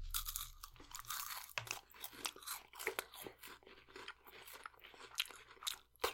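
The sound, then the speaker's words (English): Someone bites into and chews Reese's Sticks, a chocolate and peanut butter wafer candy, producing many faint, crisp crunches in an uneven chewing rhythm. “So this one is gonna be much easier. And it's gonna make a sound. Wait. Yeah, best one yet. Alright, Reese's Sticks.”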